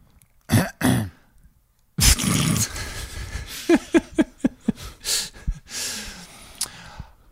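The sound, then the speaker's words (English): A person with a coronavirus-affected throat clears it with two harsh, rasping bursts, then follows with a longer stretch of throaty rasps and a run of short, breathy coughing noises. “Just gonna clear my corona throat.”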